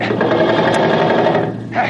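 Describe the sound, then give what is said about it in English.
Machine gun fire in a radio drama: a rapid, loud, unbroken mechanical rattle lasting about a second and a half, then a brief drop before a short final burst. “Here, cover him with that machine gun, Don. Yeah, okay. All right, set. Now let him have it, Don.”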